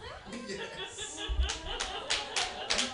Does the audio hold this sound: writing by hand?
no